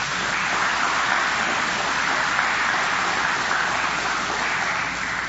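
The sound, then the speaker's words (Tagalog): A church audience claps in praise of the Lord, making a loud, dense, rain-like wash of clapping that holds steady throughout. “Pwede mo palakpakan natin ng Panginoon?”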